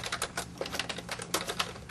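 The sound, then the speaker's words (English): Rapid, faint keystrokes rattle off in a steady stream of many clicks as an address is typed on a computer keyboard. “So I'm going to go ahead and type in 1 Microsoft Way,”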